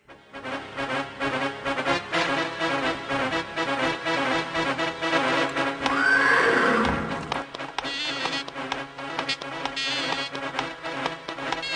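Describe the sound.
Horses neigh while riders' hooves clatter. One loud whinny rises and falls midway through a dense, continuous layer of sound.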